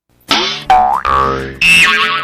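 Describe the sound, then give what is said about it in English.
Cartoon boing sound effects standing in for a car bouncing on bad shocks: four loud, springy twangs in quick succession, each ringing briefly before the next, heard alone with no voices. “You see that car next to you or ahead of you bouncing along? That's not rhythm. That's probably bad shocks”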